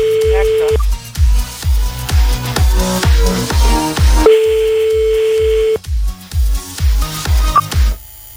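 A steady electronic phone ringing tone sounds twice over a loud, pounding rhythmic music bed as a call is placed live on a French radio phone game.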